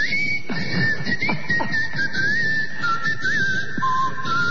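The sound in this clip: A person whistling a canary-style call: one sustained, fairly high tone that wavers and warbles slightly throughout, over a steady background hum.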